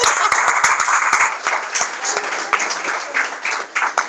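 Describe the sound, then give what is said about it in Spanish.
Audience applause at a live outdoor book presentation: dense, steady clapping that stays fairly loud for the whole stretch, with no voices over it. “¡Claro que sí! ¡Aplauso por eso!”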